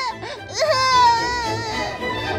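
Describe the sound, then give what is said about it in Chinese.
A young girl crying in a dramatized story, a loud sustained wail with wavering, sliding pitch and short broken sobs before it. “莎拉走进房里，乐蒂仍旧哭个不停，甚至还在地板上打滚，两条腿不停地踢动。”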